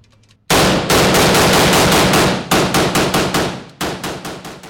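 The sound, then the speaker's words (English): An AK-47 rifle fires on a shooting range in three rapid strings of many loud, sharp cracks, with short pauses between the strings and each string gradually softening. “we're going to be shooting an AK-47, and we're going to load it now. And now the rifle is being charged.”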